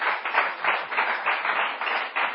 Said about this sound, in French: Clap your hands for Jesus. Acclamez Jésus.